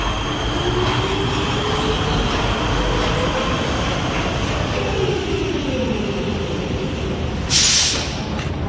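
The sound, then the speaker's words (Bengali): A metro train ride gives a steady rumble of wheels and carriage noise throughout, with a brief high hiss rising near the end. “এদিকে ময়দান থেকে ক্লান্ত পায়ে metro স্টেশনে ঢুকে মেট্রোতে উঠে পড়ল অদিতি।”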